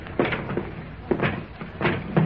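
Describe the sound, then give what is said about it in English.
Heavy chest lid weighted with iron being opened, giving several dull knocks and low scraping thuds spaced unevenly, moderately loud and without speech. “The lid'll open all right. It's loaded with iron and held by its own weight. Here, let me try it.”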